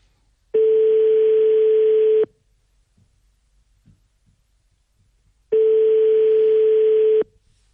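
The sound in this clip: A telephone ringback tone sounds on a call to a mobile number. Two long, steady, mid-pitched beeps come alone, separated by a few seconds of silence.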